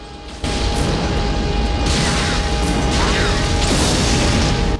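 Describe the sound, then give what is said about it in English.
An explosion hits an apartment building: a sudden loud blast opens into a sustained, crashing roar, with further surges of rumbling debris as it goes on. “The soldiers share a glance, and the next explosion hits the apartment building.”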